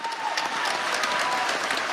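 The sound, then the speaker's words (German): Dense, steady applause from a whole theatre audience giving a long standing ovation to a veterans' theatre company, loud and continuous throughout with no voices rising above it. “Der Applaus für das Veteranentheater dauert bis zu 15 Minuten. Der ganze Saal applaudiert im Stehen.”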